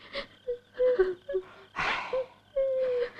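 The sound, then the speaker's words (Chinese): A mother and child cry in a dramatized scene at an old man's house where a traveler seeks lodging: a few drawn-out, high, wavering wails and whimpers separated by breathy gasps, with one broad, noisy sob partway through. “别哭了，你们娘俩没完了”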